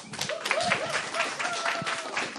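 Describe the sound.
An audience at a church gathering applauds a newly introduced guest speaker: steady, continuous clapping throughout, with a voice speaking over it.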